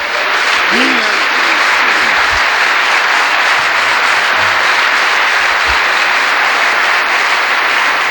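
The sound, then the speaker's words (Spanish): An audience applauding at a church teaching, with steady, dense clapping that fills the whole clip at an even, loud level and no clear talk over it. “Le damos un aplauso al Señor.”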